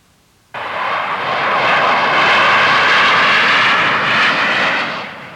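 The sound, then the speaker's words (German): Lufthansa airplane engine on a flight from Düsseldorf to Munich: a steady, broad roar that starts abruptly, holds at an even, loud level and eases slightly at the end. “Das ist ein Lufthansa-Flugzeug von Düsseldorf nach München.”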